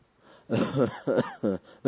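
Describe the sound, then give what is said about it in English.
A voice imitates the coughing of an old blind man with several rough, throaty cough bursts in quick succession, gravelly and voiced, with no words spoken. “And this old man, the blind man, coughing.”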